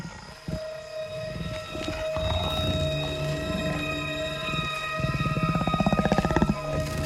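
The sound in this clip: A tiger vocalizes as a person approaches it. Low rumbling growls build into a pulsing, throaty rattle toward the end, set against sustained steady tones, with no voices.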